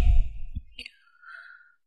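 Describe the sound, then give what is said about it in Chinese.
Air blown out through the mouth in a breathing exercise meant to strengthen the kidneys. A brief low rumble gives way to a soft, breathy blowing hiss lasting about half a second, then fading out. “因为呼气的时候是用口嘛”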